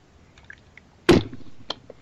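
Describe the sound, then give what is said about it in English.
A drink is slurped once, a sharp, noisy sucking burst near the middle that trails off quickly. A few faint small clicks come before and after it, with no talk. “Let me take a slurp here. Slurp, slurp,”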